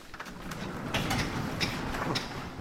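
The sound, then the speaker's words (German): A roller door to an industrial hall is opened, giving a continuous rattling, rumbling metallic noise with several sharper clatters along the way. It is fairly faint and steady throughout. “der Tourismusbeauftragte der Insel, öffnet das Rolltor zu einer anderen Halle.”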